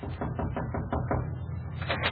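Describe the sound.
Rapid knocking on a medical officer's door aboard a wartime ship: a steady series of quick, muffled raps, evenly spaced and continuing throughout.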